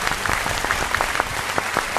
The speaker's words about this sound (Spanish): Bueno, pues un aplauso, venga.